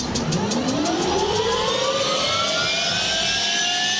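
A jet engine spools up toward 62% N1, a steady, loud roar with whining tones that climb in pitch across the whole stretch.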